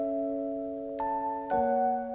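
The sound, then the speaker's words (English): Ringing chimes used as a sound effect: a held, bright harmonic tone, then two more struck notes about half a second apart, each ringing on and layering over the last. “that, my friends, is the international auditory symbol of borderline personality disorder. So when you hear the chimes,”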